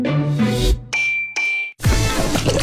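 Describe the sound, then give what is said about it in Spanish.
A mobile phone drops into a bowl of soup, giving a bright metallic ding and clang that ring briefly, followed by a burst of broad, noisy sound. “no, mi celular cayó en la sopa.”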